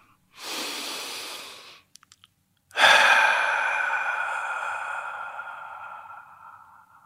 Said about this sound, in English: let's take a deep breath.